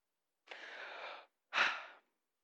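A person takes a breath: two airy breath sounds, a longer steady one followed by a shorter, stronger one, heard alone without talk.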